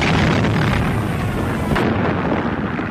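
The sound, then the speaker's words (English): Anti-aircraft shells exploding during a WWII dogfight in the 1940 Battle of Britain, a dense, continuous roar of booming bursts and rumble with no clear gaps. “A dogfight punctuated by anti-aircraft shells.”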